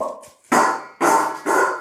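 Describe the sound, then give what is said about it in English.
A dog makes noise while trying to bring over its food bowl: a faint whine-like sound, then three loud, harsh bursts about half a second apart. “that noise you can hear is Bruno trying to bring me his bowl”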